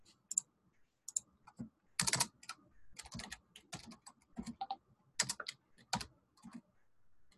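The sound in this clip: Typing a word on a computer keyboard: many quiet keystrokes, clicking in irregular bursts and pauses.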